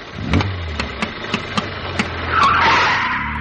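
A Model T car engine starts with a run of sputtering chugs, then settles into a steadier running drone as it drives off.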